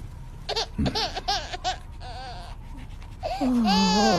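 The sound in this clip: A baby crying and fussing in high, wavering wails broken into short bursts, which swell into a louder, sustained cry at the end.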